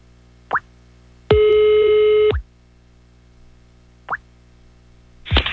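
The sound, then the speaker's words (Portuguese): Telephone sounds as a call is dialed: a short click, then a steady electronic tone about a second long, another click, and a brief burst of noise at the end. No voices are heard. “Eu vou ligar pra Ildis!”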